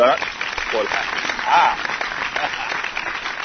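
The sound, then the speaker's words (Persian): Hands clapping as someone applauds themselves during a word-guessing game, a dense patter of claps mixed with voices and a brief whistle-like tone. “نه، برای خودم دست دادم، برای خودم دست دادم.”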